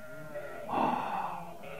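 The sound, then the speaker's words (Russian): A single sheep bleats, one wavering mid-pitched call rising out of a faint background hush, as a flock of sheep is brought to a well to drink. “Она дочь Лавана, и она приводит сюда отцовских овец на водопой”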